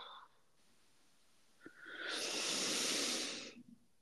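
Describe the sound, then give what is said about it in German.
A long, deep breath during a relaxation meditation exercise, heard as a loud, airy hiss that swells and then fades away on its own. “zieh mal die Luft ganz tief in deine Lungen rein und halt die mal kurz fest. Für so einen kurzen Moment zieh vielleicht noch die Schultern hoch und beim Ausatmen lass einmal die Spannung aus deinem Körper raus.”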